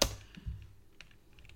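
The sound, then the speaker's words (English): Typing on a computer keyboard, heard as a few soft, scattered keystroke clicks at irregular intervals, with one slightly stronger tap at the start and fainter taps after it. “What are you typing in?”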